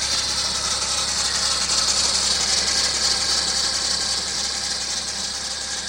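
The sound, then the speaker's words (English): A Sprinter van rattles while driving: a dense, continuous buzzing rattle runs over steady engine and road rumble. It stays loud and unbroken for the whole stretch, with no voices. “this is indeed the sound I was hearing as I drove my Sprinter back from Vermont to Chicago.”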